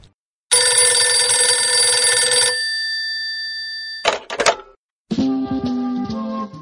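A telephone rings for an incoming call: a loud, rapid ringing burst that lingers as a fading tone, then a brief clatter and another tonal sound.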